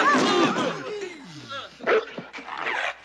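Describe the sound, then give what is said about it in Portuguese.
A dog barking and yelping in a dubbed film scene, a few sharp barks mixed with excited voices talking over them. “Ei, cuidado! Segura ele! Segura esse cachorro!”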